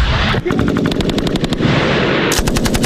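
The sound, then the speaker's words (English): Machine gun fire from archival war footage: rapid, regular bursts of loud, sharp shots over a constant rumbling background, with a brief pause before a second burst. “You guys saw some machine guns now, okay? Yeah. Ready for some machine guns?”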